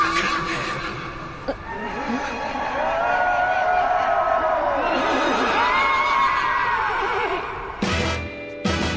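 A horse whinnies, standing in for the sound of a motorbike from an anime: a few long, wavering, high neighs that rise and fall, loud and clear.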